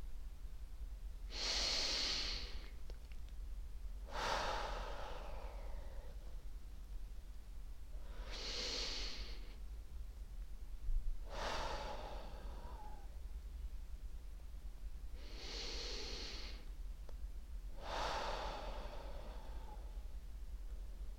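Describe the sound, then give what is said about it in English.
Three deep breaths taken during a guided meditation, heard as six soft, airy bursts of inhaling and exhaling at an even, unhurried pace, quiet and alone with no talking. “I invite you to close your eyes and take 3 deep breaths.”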